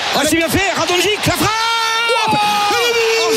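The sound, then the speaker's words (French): Football crowd cheering in the Vélodrome stadium, loud and continuous, with rising and falling shouts and whoops from many voices, then longer sustained chanted notes near the end. “C'est ce qu'il fallait pour réveiller encore plus le vélodrome. On disait, voilà, une petite action, une petite étincelle. Elle est arrivée et du coup, le public qui pousse beaucoup plus.”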